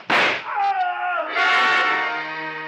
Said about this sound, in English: I didn't want to fire, but I had to, and fast, in the darkness. Aim was next to impossible, but I shot low.